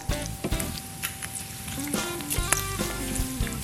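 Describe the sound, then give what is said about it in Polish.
Bacon frying in a pan while being stirred: a continuous crackling sizzle, broken by scraping strokes and a few sharp clinks of a utensil against the pan. “W międzyczasie przemieszamy boczek.”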